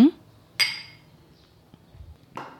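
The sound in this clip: Glasses clink in a toast with a mixed vodka drink on a summer day: a couple of bright, sharp clinks separated by quiet, each ringing briefly before fading.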